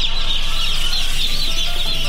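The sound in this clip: Many chickens cluck together at a poultry farm in Khost, a dense, continuous chorus of overlapping high clucks at steady loudness, with no talk.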